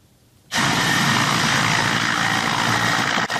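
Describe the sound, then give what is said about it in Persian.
A Ukrainian Mi-8 military helicopter, armed with unguided rockets, roars loudly with a sudden onset into a steady, dense engine and rotor noise that holds unbroken to the end. “در جنگ با روسیه اوکراینی ها از چرخ بالی می 8 استفاده می کنند که با موشک های هدایت نشونده مسلح است.”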